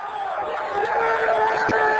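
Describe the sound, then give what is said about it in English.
Football fans cheering while watching the Super Bowl: a dense, continuous roar of crowd voices with shouts and whoops mixed in, holding a steady loudness throughout. “That's the sound of fans watching this year's historic Super Bowl.”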